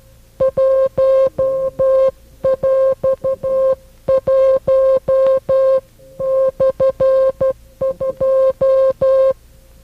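Coded tone pulses spell out the mixed number one and a half, a string of short and longer beeps at one steady mid pitch arranged in five clustered groups, loud and clear with short gaps between them.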